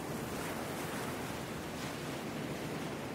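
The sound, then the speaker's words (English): Ocean waves at Mackerel Cove in Jamestown, Rhode Island, on a pre-summer day: a continuous, even wash of surf with no breaks. “the waves of Mackerel Cove in Jamestown, Rhode Island.”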